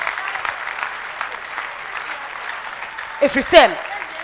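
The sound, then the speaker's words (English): A church audience claps together in a dense, steady patter of many hands that continues throughout. The clapping swells near the end, where a voice briefly cuts in. “Everybody here, clap your hands for the Lord.”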